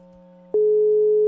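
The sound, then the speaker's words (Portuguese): A telephone tone on an outgoing call begins about halfway through as a loud, steady electronic tone, replacing a faint low hum, and holds unbroken to the end. “Tá ligando pro Davi?”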